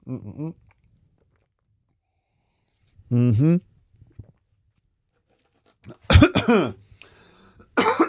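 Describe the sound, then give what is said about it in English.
Coughing after a sip of tea went down the wrong way: a few separate bursts of coughing and throat clearing with silent pauses between, the final fits harsher and more broken. “Excuse me. Oh, a little bit of tea went down the wrong way. Because I drank it too quickly.”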